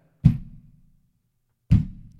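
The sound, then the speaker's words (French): Two distinct knocks come in reply during a séance, dull and low-pitched, each a single thud with a short decaying tail, separated by a silent pause of about a second and a half. “Si tu m'entends, tu frappes deux coups. Si tu m'entends pas, frappe un coup.”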